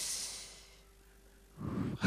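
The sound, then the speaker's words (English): A person imitates a smoker's breathing: a long, airy, hissing exhale that fades into quiet, then a fuller, louder breath near the end. “So whenever there's crisis, mimic a smoker's breathing.”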